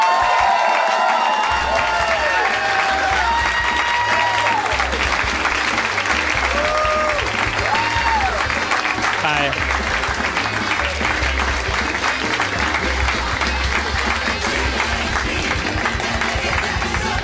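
Live audience applause and cheering welcoming guests to the stage at a Houston show: dense, continuous clapping with cheers and shouts, loud and steady for the whole stretch without letting up.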